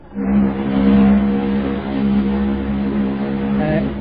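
An old car's engine runs with a steady, loud, low throbbing drone that holds evenly for about four seconds, with no voices heard.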